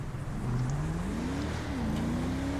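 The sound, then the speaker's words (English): A V12 Charger car accelerates hard in a video game. The engine note climbs steadily in pitch, dips briefly as if shifting gear, then climbs again. The drone is loud and continuous throughout. “But if I slam the gas, the 0 to 60 is about... As a matter of fact, let me test it.”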